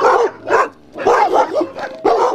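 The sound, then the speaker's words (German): Sled huskies bark on Andøya, north of the Arctic Circle, where a team of 21 dogs is kept. Several sharp, high-pitched barks and yelps come in quick, irregular bursts separated by brief gaps. No one talks. “wo schon 21 Hunde sehnlichst warten”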